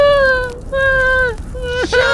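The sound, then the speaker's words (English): A voice acts out sobbing during a tabletop role-playing game: several drawn-out, whimpering wails with a wavering, drooping pitch, broken by short catches of breath, the last one cracking upward. “Just still sobbing.”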